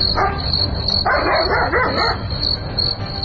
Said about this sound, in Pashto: نه پوهیږم چې دا سپی ولې غاپي